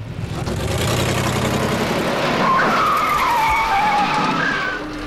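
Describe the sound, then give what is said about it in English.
A car doing a handbrake turn on a slick street: a loud, continuous engine roar with a wavering tire squeal through the middle, and the engine still roaring afterward. “A handbrake turn on the slick street, and off they speed, almost colliding with an oncoming car.”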